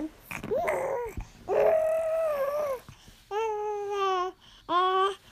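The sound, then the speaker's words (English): A seven-month-old baby girl babbles in four drawn-out, sing-song vocal bursts with wavering, rising and falling pitch. Her cooing and squealing is loud and clear, with short pauses between bursts and no other voices. “what you're hearing right now is a recording of my daughter when she was 7 months old”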